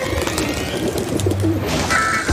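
Pigeons cooing in a city, a few low, soft coos over steady background noise, with no talk.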